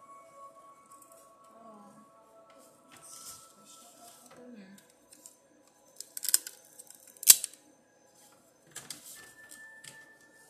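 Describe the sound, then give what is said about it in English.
A piece of tape is torn off for use. A few short, scratchy ripping bursts stand out in the middle, with quieter rustles and faint voices around them. “Let me get a piece of tape. Because I got to have a piece of tape.”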